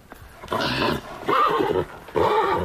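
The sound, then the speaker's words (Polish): Spooked horses neigh three times in a row, each a shrill, wavering whinny of about half a second, separated by short pauses, loud and alone with no talk. “Konie się płoszą.”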